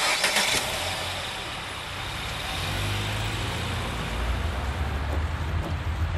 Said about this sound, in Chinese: 走吧，开车， 好， 往前开。